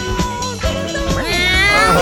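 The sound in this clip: Cat meows from a 1975 record, a few wavering, bending cries woven into steady music that keeps playing underneath them.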